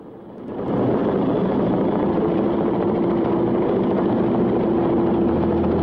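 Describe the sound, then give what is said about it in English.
A helicopter lifts off a concrete landing pad, its engine roar swelling within the first second to a loud, steady, dense drone with a sustained low whine running through it. “Julie waves and blows a kiss as the helicopter lifts off the concrete landing pad.”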